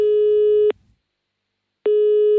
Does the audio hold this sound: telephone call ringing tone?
yes